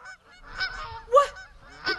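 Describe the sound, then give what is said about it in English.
Geese in a farm pen honk, the largest one approaching: three loud, nasal honks spaced across two seconds, with softer calls in between and no talking. “The largest of the geese parts from the flock and waddles menacingly toward good Farmer Jenkins' wife, Mabel.”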